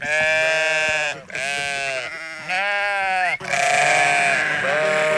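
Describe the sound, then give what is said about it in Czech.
Sheep bleat on a pasture at a three-border meeting point, a loud chorus of wavering, strongly harmonic calls overlapping in four long bursts separated by brief dips. “Takže ovečky, tady na Trojmezi, u Staňu, líbí sa vám tady?”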